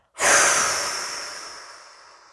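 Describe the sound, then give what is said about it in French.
A deep, slow exhale during a relaxation breathing exercise: one long, breathy rush of air that starts strongly and fades out gradually over about two seconds, with no talking. “Et à l'expiration, nous soufflons tout ce qui pourrait nous tendre.”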